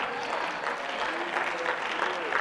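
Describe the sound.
Audience applause fills the whole stretch as a steady, dense wash of clapping from a crowd, even in level with no clear breaks.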